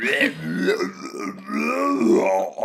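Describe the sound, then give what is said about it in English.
A voice imitates a donair monster's mighty belch: one loud, drawn-out, rough and gravelly croak lasting nearly three seconds, wavering in pitch throughout. “the Donair monster belches mightily as it reveals itself to you all. And it goes,”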